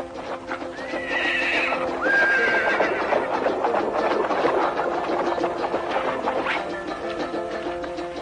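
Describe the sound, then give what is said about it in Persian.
Horse whinnies and hooves clip-clop during a wedding procession: a high, wavering neigh rises above a steady, busy clatter of hooves that continues loud throughout. “پانصد متر مانده به چادر داماد، عروس از اسب پیاده می شود.”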